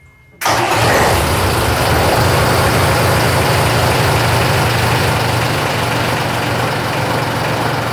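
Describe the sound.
A ship's diesel engine on an old Zeeland klipper, a Dutch sailing vessel, starts after a brief silence. It catches abruptly and settles into a loud, constant low idle rumble that holds steady to the end.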